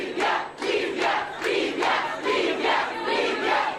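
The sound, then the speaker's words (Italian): A crowd chants in loud rhythmic bursts of massed voices at a popular welcome in Libya for visiting French and British leaders. The pulses are even and steady, with no break. “Applausi, cori, entusiasmo popolare.”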